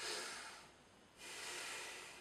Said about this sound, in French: Prenez une bonne respiration